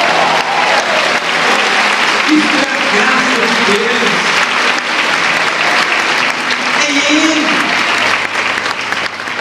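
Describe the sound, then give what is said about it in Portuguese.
A church audience applauding, a dense, loud, sustained wash of clapping from many hands, with voices calling out within it throughout. “Quem é justo aqui, dê um aplauso ao Senhor.”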